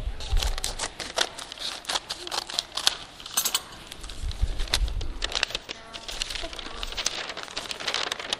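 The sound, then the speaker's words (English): A piece is cut off an object with a busy run of sharp crinkles, snips and crumpling rustles broken by short pauses, moderately quiet with no voices. “Well, let me try cutting a piece of it off.”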